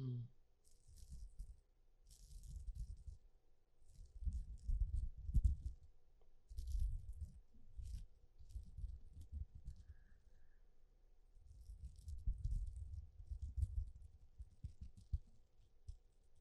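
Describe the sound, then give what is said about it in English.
Sequins rattle and rub as they are handled, making a series of soft, crinkly bursts of tiny clicks with short pauses between them. The sound stays faint throughout. “Oh, sequins are fucking delightful. Sequins are beautiful. Anything that has a little rubbing sound.”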